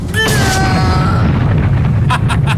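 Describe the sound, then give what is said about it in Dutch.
A bomb goes off after a string is pulled: a sharp, loud blast opens into a heavy, sustained low rumble with a fading ringing tone, and three short crackling bursts follow near the end. “Dit is het bewijs, de bom doet het goed. Ja, ja, hij doet het goed.”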